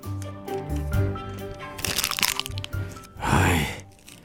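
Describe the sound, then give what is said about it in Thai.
Sheet of paper crumpled angrily in someone's hands, giving a few loud crackling, crunchy bursts with quieter rustling between them. “ทันใดนั้น ตาของโมก็หยิบแผ่นกระดาษมาขยำด้วยความโกรธ”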